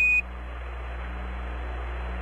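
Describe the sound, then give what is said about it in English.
A spacecraft master alarm tone sounds as a brief, high-pitched beep lasting a fraction of a second. It cuts off abruptly, leaving a steady low hum. “And a master alarm, it's reset.”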